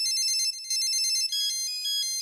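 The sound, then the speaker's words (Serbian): Mobile phone ringtone plays a bright, high electronic melody in quick repeating note patterns. It rings steadily and clearly on its own with no voices. “Kad zazvoni mobilni telefon.”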